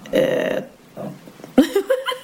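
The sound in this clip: A throaty, low burp lasts about half a second. A shorter grunt-like sound and then speech follow.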